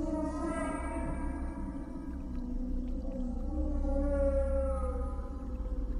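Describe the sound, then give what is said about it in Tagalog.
A woman's voice makes a strange whale-like call: long, loud, sustained moaning tones that slowly bend in pitch, sounding eerie and drawn-out. “Pagkatapos ay naglabas ng kakaibang tinig na parabang huni ng isang balyena.”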